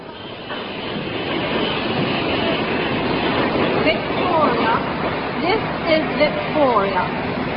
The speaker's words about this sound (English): train arriving at platform 5 is the best train from Dover.